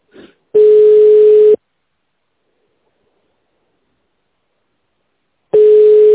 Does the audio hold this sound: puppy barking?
no

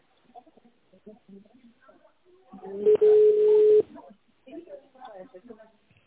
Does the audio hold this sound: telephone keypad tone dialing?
yes

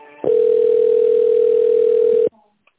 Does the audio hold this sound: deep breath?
no

